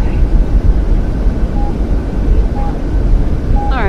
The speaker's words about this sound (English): 737, taxi to gate 1.